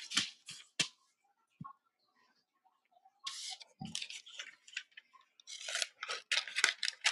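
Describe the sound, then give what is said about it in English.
Scissors snip through paper coupons: a few crisp, isolated snips, then quiet, then denser bursts of snipping and papery rustle, all faint. “And I'm just sitting here cutting coupons.”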